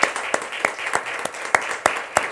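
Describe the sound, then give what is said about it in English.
A church audience claps in praise before a service begins. The hand claps are sharp and land in a steady, regular rhythm, with a few quieter off-beat claps between the louder strokes. “Let's go ahead and give the Lord a hand clap of praise, even before we start.”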